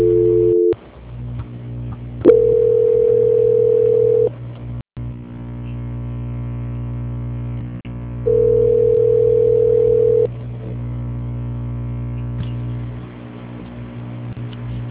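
Telephone line tones during a call transfer: a constant low hum runs throughout, joined by two steady mid-pitched tones of about two seconds each, well apart, with a few faint clicks.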